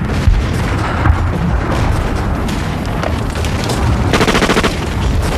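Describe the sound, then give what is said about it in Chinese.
Dense gunfire and artillery shooting: many overlapping shots and booming blasts form a loud, continuous barrage with sharp cracks throughout and no clear pauses. “停止射击。”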